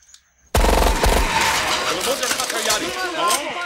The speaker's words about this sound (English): We have sensor operated machine pistols on tripods out there. Anything comes within 40 feet, get ready for the 4th of July.